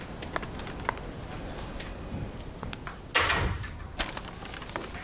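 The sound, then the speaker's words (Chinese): A door is pushed shut with a single abrupt knock and rattle. It rises out of a faint, hissy background that also carries a few light ticks and taps. “进来，把门关上。”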